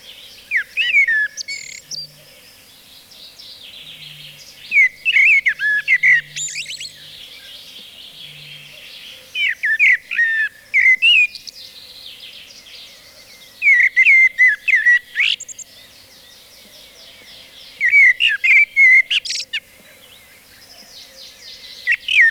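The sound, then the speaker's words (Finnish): A common blackbird sings several separate flutey, warbling phrases with quiet gaps between them, clear and bright over a faint low hum. “musta rastas.”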